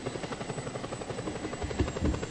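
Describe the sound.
A helicopter-like aircraft flies in a video game, giving a steady, rhythmic thumping rotor drone at an even level throughout.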